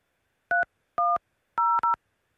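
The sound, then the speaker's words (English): DTMF keypad tones entering a PIN on a phone line: four crisp dual-pitch beeps, evenly spaced at first, with the last two close together, alone with no talking. “Please enter your show or meeting number and press. Enter your 6-digit PIN number.”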